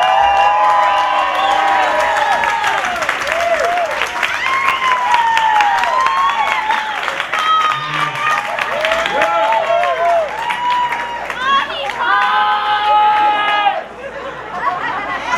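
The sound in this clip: An audience at a guitar performance erupts in cheering, clapping and whooping, a dense, loud wall of voices and applause that stays strong for most of the stretch before dipping briefly near the end.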